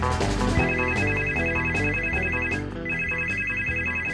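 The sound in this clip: A telephone rings with an electronic ringtone: two loud runs of rapid, high, pulsing tones separated by a short break, over a busy musical backing.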